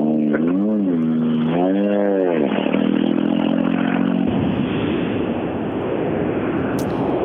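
A rally car drives a lap on a rally stage, its loud engine rising and falling in pitch through repeated revs before settling into a rough, steady roar.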